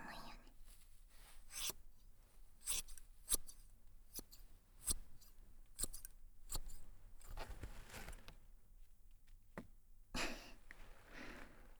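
Scissors snip through hair in many crisp, quiet cuts at irregular intervals, with faint rustling between the snips.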